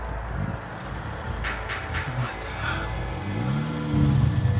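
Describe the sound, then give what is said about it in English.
A car pulls up, its engine a low rumble throughout, with the engine tone climbing and getting louder toward the end. “A car pulls up.”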